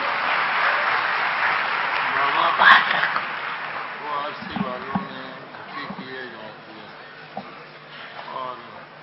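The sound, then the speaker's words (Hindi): Applause rises from an audience at a spiritual gathering as a bouquet is presented, clapping that is strongest early on and then thins beneath a voice speaking over it. “जोर से ताली बजाएंगे”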